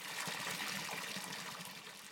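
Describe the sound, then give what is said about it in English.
Water poured into a pelican's beak makes a steady, splashing rush for about two seconds and eases off slightly at the end. No one talks over it. “The monkey put lots of water in the Pelly's beak.”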